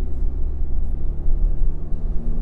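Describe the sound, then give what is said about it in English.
Steady, loud low rumble of engine and road noise from a car driving on an open highway while changing lanes, continuous throughout with no voices. “Just doing a lane change. Just getting out in the open highway.”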